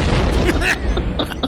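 An explosion sound effect, played as a joke about a Christmas card set to go off at midnight, rolls out as a loud, deep rumbling boom that fills the whole moment.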